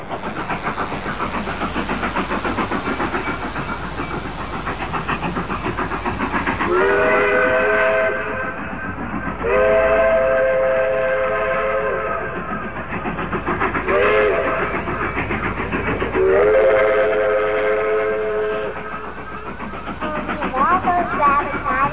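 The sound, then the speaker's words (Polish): A train departs from a station, its loud harmonic whistle sounding several times in long blasts over the constant rumbling churn of the moving train. “No to na stację i pociąg, żeby odjechał.”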